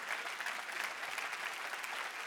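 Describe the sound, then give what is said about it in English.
A brief burst of audience applause during a talk about the Bible and citizenship, a steady wash of many hands clapping at moderate volume for about two seconds. “That's worth clapping for.”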